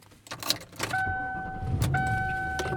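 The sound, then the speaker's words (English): Sounds come from a car as its driver heads home from work: a few sharp clicks and jangles, then a steady two-note electronic chime over a low engine hum. “I am driving home, so I'm leaving work a little early today.”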